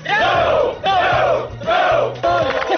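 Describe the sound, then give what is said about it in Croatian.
Former youth work brigade volunteers in Užice shout greetings together as a crowd, in four loud, ringing bursts of unison yelling with short gaps between them. “Užicem odjekivali pozdravi nekadašnjih akcijaša.”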